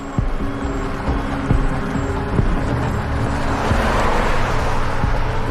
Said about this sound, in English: At night, a sedan races down a dirt road.